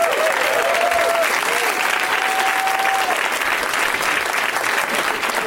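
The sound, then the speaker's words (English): Audience applause welcomes guests onto a comedy show: dense, loud clapping from a crowd that holds steady for the whole stretch without letting up. “Here they are. Welcome, you guys. Way to milk the applause.”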